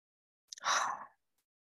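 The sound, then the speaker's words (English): A single audible exhale through the mouth, taken as part of a guided breathing exercise: a short, soft, breathy rush of air that swells and fades within about half a second, faint and alone. “inhaling through your nose and exhaling through your mouth, like an audible exhale. So just practice that a couple times.”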